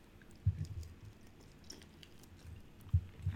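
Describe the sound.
Fried food being chewed: soft, wet crunching bites with a few sharper crunches, separated by quieter stretches of chewing, with no talking.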